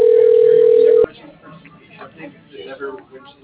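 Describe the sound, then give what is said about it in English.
Steady single-pitched telephone dial tone while a phone line is dialing out. The tone holds loud and level for about a second, then cuts off abruptly, leaving low, muffled background noise. “How are you dialing out? I think you're dialing out. Can you end that?”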